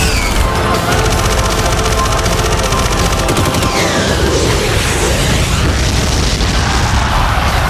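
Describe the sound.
An enemy fighter jet is shot down during an aerial dogfight, exploding amid machine-gun bursts: a continuous loud, rumbling boom laced with rapid gunfire crackle that stays dense and forceful throughout.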